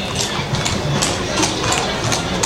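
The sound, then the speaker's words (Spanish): Hooves clip-clop steadily as horses are ridden along by male and female riders, the footfalls blurring into a dense, continuous wash of noise without clear individual beats. “Qué bonitos caballos. Qué bonito. Y no solamente jinetes, también vienen damas.”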